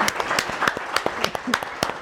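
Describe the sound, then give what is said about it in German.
Audience applause for a professor being introduced at a panel discussion, a short burst of many distinct, crisp hand claps at moderate loudness. “Ihr Applaus, Herr Professor Zundel.”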